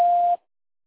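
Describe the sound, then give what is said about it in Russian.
A single steady voicemail beep tone, mid-pitched and even, lasting about a third of a second before cutting off abruptly into silence. “И, пожалуйста, оставьте сообщение после сигнала.”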